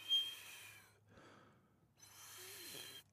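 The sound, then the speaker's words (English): A voice imitates a nose-whistling breath: two long, airy, hissing breaths, each with a thin whistling tone threaded through, separated by a brief near-silent pause. “My stepdad also would whistle when he breathed through his nose. I can't even do it. It's like a...”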